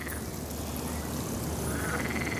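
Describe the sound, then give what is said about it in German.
Frogs croak in a city park as a dense, steady chorus that keeps up at an even level for the whole clip, with no talk over it. “Auch eine Oase für Frösche im Stadtpark.”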